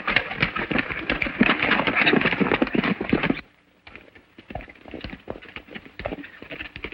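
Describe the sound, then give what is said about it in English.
Galloping horses' hooves pound in a fast, dense, thudding rhythm, loud at first, then break off abruptly for a moment before resuming more softly and unevenly. “Arriving atop a hill, the renegades watch Ruby and John gallop below.”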